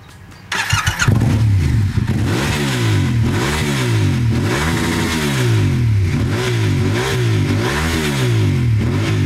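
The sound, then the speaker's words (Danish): A Yamaha motorcycle engine starts up, then revs again and again in a steady rhythm. The pitch climbs and drops with each loud burst of throttle, and no one talks. “Først på Honda, og så på Yamaha. Den han kører på nu, det er den her.”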